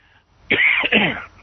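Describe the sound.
A single harsh cough in two quick bursts from someone whose drink went down the wrong way, loud and alone against near silence.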